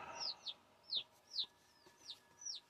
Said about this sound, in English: fucking birds are noisy. Fucking birds are noisy.